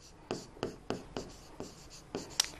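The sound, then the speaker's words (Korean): Writing on a board during an English grammar lesson: several short, scratchy strokes at a fairly even pace, quiet and clear with no voices. “자, 비동사 먼저 써주고 these라는 대명사를 써볼게요.”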